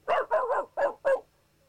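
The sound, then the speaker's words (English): A human voice imitates a neighbouring dog's barking: a quick series of about five sharp, mid-pitched bark-like yelps, with the second and third running together, ending in silence. “It's a dog two doors down, and it sounds like this.”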